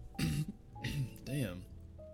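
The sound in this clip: Throat clearing interrupted by hiccups: three short, voiced, gulping bursts mixed with raspy noise, fairly loud and with no talk in between.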